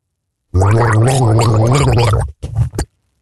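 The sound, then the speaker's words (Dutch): A man gargles a tune, making a bubbly, watery gurgle with a wavering pitched hum. It runs as one long, loud stretch, then breaks off into a short final burst. “Dus kan jij raden welke tune hij gorgelt?”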